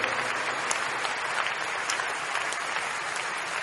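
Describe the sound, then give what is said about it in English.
A church audience applauds with loud, sustained clapping, many hands blending into an even roar of applause that holds steady throughout. “Keep clapping, keep clapping, keep clapping.”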